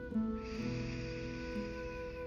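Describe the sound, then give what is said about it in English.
A slow, deep inhale: a soft, breathy hiss that begins quietly and continues steadily over a sustained low tonal hum. “One more deep breath.”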